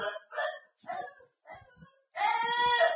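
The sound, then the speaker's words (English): A dog barks in the background with odd, hoarse barks: five short harmonic yelps in quick succession, the last one longer and more strained, with no talk over them. “That's my dog in the back.”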